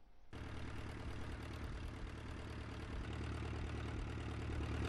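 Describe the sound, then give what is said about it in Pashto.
Boat engines approaching an island of dogs near Karachi: a quiet, steady low drone that starts abruptly and swells slightly toward the end, with no voices. “دا سپی چې کله هم د ورتلونکو کښتو د انجنونو آواز واوري نو دې ته ورغونډېدل شروع شي.”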